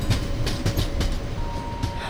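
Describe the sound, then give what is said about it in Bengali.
A train rolls along the rails after leaving Howrah station, a steady rumble with a few rhythmic clicks of the wheels and a faint steady whine running through it. “ট্রেনও এগিয়ে চলল গন্তব্যের পথে”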